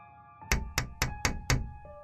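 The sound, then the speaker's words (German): Five sharp knocks land on a window glass in an even, steady rhythm over a faint constant hum, followed by quiet. “Es musste so gegen 23 Uhr gewesen sein, als es plötzlich am Fenster klopfte.”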